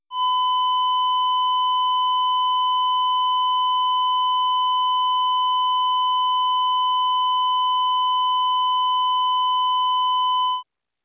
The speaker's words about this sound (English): This is the sound of a 1000 Hz square wave.